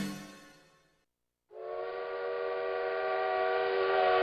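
A train horn sounds for a night train as a loud, steady harmonic chord that starts after a short silence and holds to the end, swelling slightly; a fading sound dies away before the gap.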